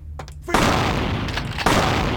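Shotgun blasts ring out in a video game shootout: two heavy booming shots, the second about a second after the first, each followed by a rolling roar.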